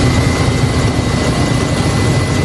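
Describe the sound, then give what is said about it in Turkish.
Firefighting helicopters working over a forest fire make a loud, steady engine and rotor roar. The drone is unbroken and heavy in the low end, with no voices. “Helikopterler alevlerin üzerine tonlarca su bıraktı.”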